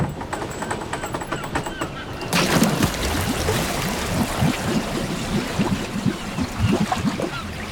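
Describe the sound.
A diver plunges into water to descend toward a wreck. A sudden burst of rushing, bubbling water breaks in after a couple of seconds and continues as a steady, churning gurgle.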